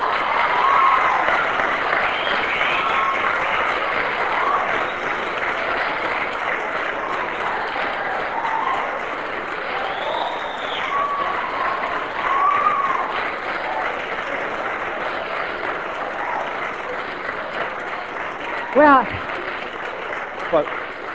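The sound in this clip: Audience applause: steady, dense clapping continues unbroken for a long stretch, with voices audible over it.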